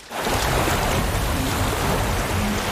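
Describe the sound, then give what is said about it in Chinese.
Rushing flood water in a cartoon surges in abruptly, then holds as a dense, loud, continuous wash of noise with no voices. “水来了， 让冰墙挡走”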